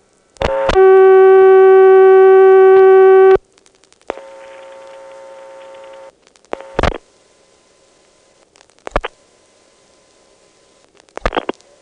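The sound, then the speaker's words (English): Telephone ringing tone on a line in Port Royal: one long, steady, buzzy tone of about two and a half seconds, followed by a softer, shorter tone and then a few scattered clicks against silence. “Here's a call to a line in Port Royal, and I'll be dialing one of the last digits that rings with that long single ring.”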